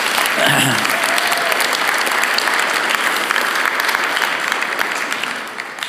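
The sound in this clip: Audience applause fills a church gathering as staff honour a departing office manager: a dense, steady wash of many hands clapping that holds for several seconds and eases slightly at the end.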